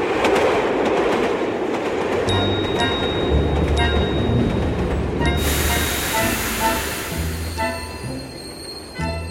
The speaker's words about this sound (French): il arrive en train à la gare de Marseille-Saint-Charles